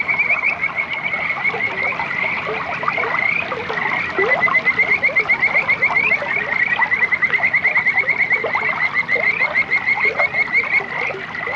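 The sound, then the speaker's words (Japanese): Frogs croaking beside a flowing stream form a dense, steady chorus of many rapid, overlapping calls that stay fairly loud and continuous throughout. “溶けるような小川とカエルの鳴き声は、さっぱりと甘い和菓子を食べているような感覚になります。”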